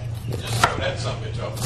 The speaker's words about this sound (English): there might be a little bit of the root ball that's on the inside of the onion there. Just cut that off.